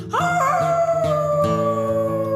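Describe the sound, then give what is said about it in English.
An animal's howl in the woods: one long, loud harmonic cry that climbs quickly at the onset, then holds a steady, slightly sinking pitch for about two seconds, heard alone. “And with that howl, she was gone.”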